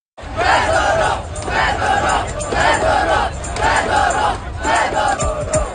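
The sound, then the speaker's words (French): A large crowd of protesters demonstrates in the streets against a minister's dismissal, chanting loudly in a steady repeated rhythm, each phrase roaring up and falling back in a regular cycle. “Des milliers de manifestants, vous les entendez, sont descendus dans les rues de plusieurs grandes villes du pays pour protester contre son limogeage.”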